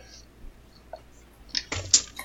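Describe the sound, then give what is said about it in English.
Dice being dropped back into a bag make small, quiet clicks and rattles, with sparse taps at first and then a brief cluster of clattering toward the end. “I've got a bunch of dice getting put back in a bag, so I have one set out.”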